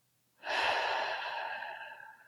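A slow, calming breath from a relaxation exercise with longer exhales, heard alone as one steady, airy rush that starts abruptly after a short silence and then fades gradually over about two seconds.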